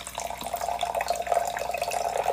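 Sparkling San Pellegrino water poured from a small bottle in a high, long stream into a glass, making a continuous splashing, bubbling trickle that holds steady throughout.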